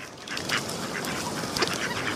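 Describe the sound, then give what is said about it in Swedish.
Duck quacking as a sound effect: several nasal quacks at an irregular pace over a continuous rough background, with no voices. “Lägg in anka.mp3 i bakgrunden här.”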